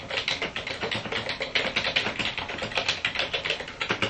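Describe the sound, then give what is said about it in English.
Fast typing on a computer keyboard: many quick, light keystroke clicks in a steady, continuous rhythm, with no voices. “So that's your subject, and when you tab once, you get to the main body of your entry, and you can type whatever you desire.”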